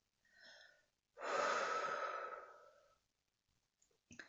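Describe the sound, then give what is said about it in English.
Deep breathing during a calm guided exercise: a short, soft inhale, a pause, then one long, airy exhale that swells and gradually fades into quiet. “Let us breathe in deeply, holding this truth, and hold the breath and out.”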